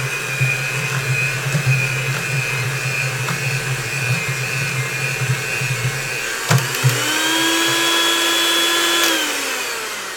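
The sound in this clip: An electric mixer churns peanut butter cookie dough with a steady motor whir and uneven thumping. A sharp clunk follows, then a brighter, higher whine holds for a few seconds before dropping away near the end.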